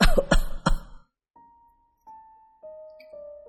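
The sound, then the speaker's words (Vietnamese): Coughing from someone who has choked on saliva: three sharp, harsh bursts packed into the first second. Then a steady high tone holds and shifts slightly in pitch until the end. “ông Tâm bất ngờ bị sặc nước bọt, ho khụ khụ lên”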